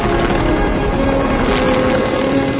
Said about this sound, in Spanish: Un helicóptero sobrevuela el océano.